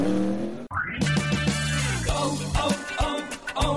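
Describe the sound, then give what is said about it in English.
A NASCAR stock car engine pulls away after a pit stop refuel. It roars loudly, dips for a moment, then rises in pitch into sustained revving. “Side service complete. Second can of Sunoco fuel in. He's down and away.”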